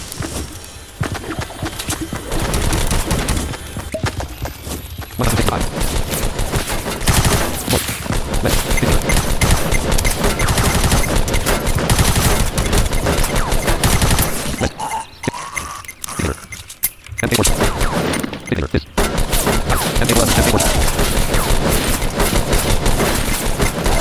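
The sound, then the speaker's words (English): Rapid gunfire from the default gun in a video game: dense, loud shots fire almost without pause, with brief breaks in the middle and near the end. “Default gun sucks so much ass.”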